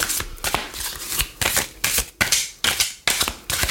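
Playing cards are shuffled vigorously by hand in a series of crisp, rattling riffle bursts. Each burst ends in a sharp snap, and they repeat in a quick, uneven rhythm with no talk over them.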